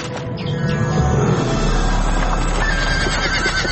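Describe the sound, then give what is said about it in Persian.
A horse pulling a family's carriage on a dark, foggy night neighs loudly while its hooves keep up a continuous, busy clatter underneath. “یک فامیل با اسب و گادیشان در سفر روان بودند”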